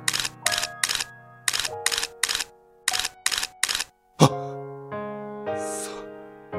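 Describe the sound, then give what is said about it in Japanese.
Camera shutter clicks photographing cherry blossoms: nine crisp clicks in three quick groups of three, with sustained tones underneath, followed by one sharp hit and lingering tones. “よし、この桜をこの素晴らしい風景を写真に撮るぞ”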